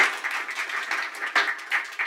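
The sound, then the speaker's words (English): An audience claps at an evening gathering in Baltimore, a steady, dense patter of hands that swells in a few uneven waves and stays fairly faint throughout. “we can clap.”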